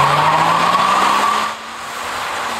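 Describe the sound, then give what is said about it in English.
Car tires squeal loudly in a sustained burnout at an illegal drag racing and stunting site, a steady high screech over engine noise that drops in level after about a second and a half, then carries on more softly. “Video shows a driver doing an epic burnout at Jack Point near BC Ferries Duke Point Terminal”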